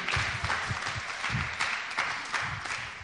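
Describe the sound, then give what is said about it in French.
A church audience loudly acclaims Jesus with dense, steady applause that holds at an even, loud level for about three seconds. “Acclame très fort le Seigneur Jésus.”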